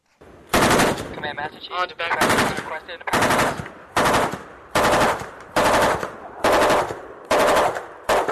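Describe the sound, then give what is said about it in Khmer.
Loud machine-gun fire comes from a US Navy ship at sea during a joint naval exercise, in many short, sharp bursts that repeat in a steady rhythm with brief gaps between them. “សំឡេងគ្រាប់កំភ្លើងលាន់ឮយ៉ាងត្រហឹងបាញ់ចេញពីនាវាអាមេរិកនៅក្នុងលំហាត់យោធារួមគ្នាមួយរវាងកងទ័ពជើងទឹកកម្ពុជានិងកងទ័ពជើងទឹកអាមេរិកនៅលើផ្ទៃសមុទ្ររៀមនៃខេត្តព្រះសីហនុ”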